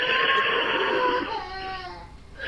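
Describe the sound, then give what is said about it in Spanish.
A young girl cries after scraping her knee on a step while climbing into a carriage, a sustained high-pitched wail with strong tonal harmonics that holds steady and then eases off slightly toward the end. “en realidad la que lloró fue su prima, que se raspó la rodilla contra un escalón al subir al carruaje.”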